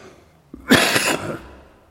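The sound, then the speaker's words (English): A single throat clearing from a ticklish throat: a harsh, rasping burst lasting under a second that fades at the end. It is heard alone. “I'm just getting a ticklish throat as I start off. I've got no idea why.”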